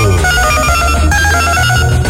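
A telephone rings as a listener calls in to a radio show, with a loud, steady ringing tone that continues throughout under a dense musical backing.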